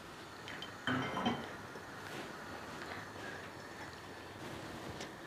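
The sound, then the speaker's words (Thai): Kitchen clinks of utensils and dishes while boiled chrysanthemum tea is strained: two brief, bright clinks near the start over a steady low hiss that continues to the end. “เก๊กฮวยเนี่ยคุณผู้ชมต้มแล้วบานแล้วได้กลิ่นแล้วเนี่ยก็สามารถกรองขึ้นมาได้เลยค่ะ”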